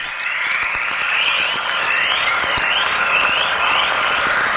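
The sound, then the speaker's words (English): Natural radio chorus from Earth's magnetic field, produced as solar particles strike it: many rising, chirp-like tones repeat over a steady bright hiss at an even level. “Okay, this is a very beautiful sounding event. This is called chorus.”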